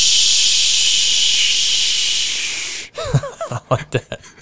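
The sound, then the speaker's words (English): A Busch Light beer can cracked open with a hiss: a long, steady, loud hiss runs for nearly three seconds, then breaks off into a few short bursts of talking. “So whenever I crack a beer, my beer tab tells me, Bush.”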